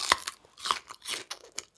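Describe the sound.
Biting and chewing a crunchy radish that was mistaken for a strawberry: many crisp, sharp crunches and crackles at an uneven rhythm, some louder bites among softer chews, with no voices.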